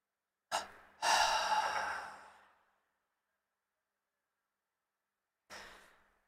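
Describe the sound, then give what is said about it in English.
Deep inhaling during a breathing exercise: a short sharp intake, then a long, loud, airy inhale that slowly fades, and after a pause a softer breath begins. “Inhale, tense, hold. One last time, inhale.”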